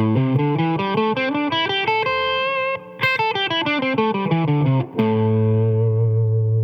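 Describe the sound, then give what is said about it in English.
A distorted electric guitar plays the A minor pentatonic scale in its first pattern from the fifth fret of the low string, running up note by note in a steady rhythm, descending back, then ending on a sustained low note. “Now, A minor pentatonic pattern 1 begins at the 5th fret of the 6th string, and it sounds like this.”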